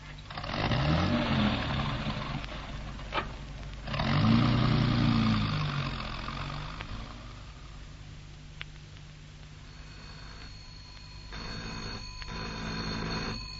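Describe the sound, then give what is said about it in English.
A car engine turns over and settles into a low, steady idle, with a couple of louder revving swells breaking the rumble early on. “The ignition switch, if you please”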